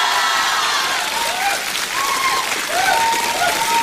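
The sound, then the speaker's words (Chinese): Warm applause from a live audience after a crosstalk (xiangsheng) performance at a competition: dense, continuous clapping that holds steady and loud from start to finish. “没想到 什么呀？ 居然得到了这么热烈的掌声”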